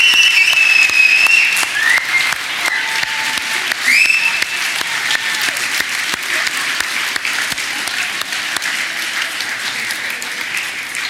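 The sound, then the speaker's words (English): Applause for the children and youth at a worship gathering: dense, sustained clapping from a crowd that carries on steadily for about eleven seconds, with a few high whistles rising above it. “And just adults, would you just put your hands together for the children and the youth and...”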